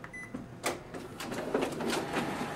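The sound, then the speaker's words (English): Photocopier making a copy: a few sharp mechanical clatters and feed clicks over a steady low machine whir, moderately quiet, with no talking. “are you using this machine? I just need to make a quick copy.”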